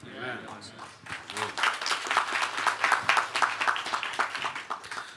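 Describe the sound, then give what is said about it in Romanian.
An audience applauds, with brisk clapping growing loud after a short voice at the start, then holding in a busy, fairly even patter of many hands before easing slightly at the end. “Mulțumesc că mă aplaudați.”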